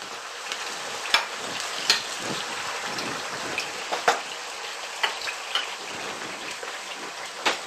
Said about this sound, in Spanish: Hemos añadido en la sartén aceite para que cubra todas las patatas.